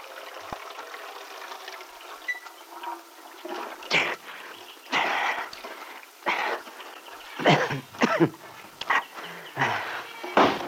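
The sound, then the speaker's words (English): Water splashes as someone washes their head outdoors. Loud gushing and sloshing bursts come in an uneven series, growing busier toward the end. “Now you'll feel better. Oh, sure feels good to get your head wet.”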